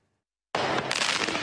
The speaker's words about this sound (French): En pleine journée, le centre pénitentiaire de Beauvais est la cible de tirs de mortier. Des tirs de plus en plus fréquents et dans un but bien précis